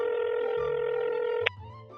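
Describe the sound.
A telephone call being dialled produces a steady electronic line tone that holds for over a second. A sharp click then cuts in and a lower, quieter tone follows.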